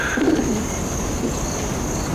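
A pigeon with an injured leg gives a brief, low coo early on, faint against a steady high-pitched background whine.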